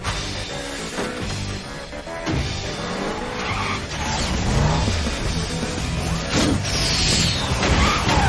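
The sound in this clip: A car approaching fast and skidding, with loud engine roar and squealing tires over a dense, constant wash of noise that grows slightly louder in the second half.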